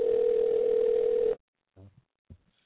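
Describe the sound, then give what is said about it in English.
A telephone ringing tone on a call plays as one loud, steady, single-pitched tone lasting over a second, then cuts off abruptly, followed by a couple of faint brief sounds. “How many fucking rings does this have?”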